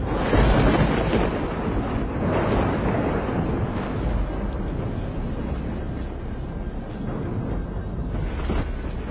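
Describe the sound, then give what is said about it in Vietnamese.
Deep thunder rumbles without a break for the whole stretch, a heavy low roar that swells and eases slightly in loudness, with no voices. “Tiếng sấm trầm đục vang lên.”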